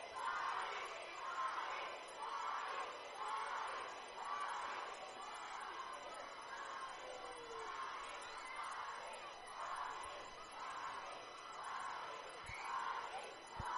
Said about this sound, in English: As Waddy will now step to the plate to the cheers of Waddy from the crowd.